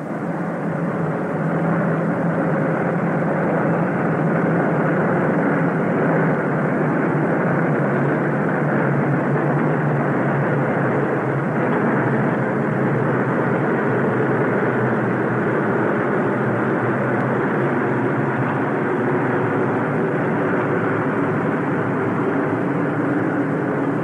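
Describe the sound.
A large formation of aircraft flying fast at high altitude makes a continuous, even, broad roar that holds steady in loudness throughout, with no voices.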